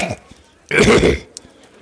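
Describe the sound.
An old soldier clears his throat: one short, rough, gravelly burst of about half a second, alone, with faint rustling before and after it.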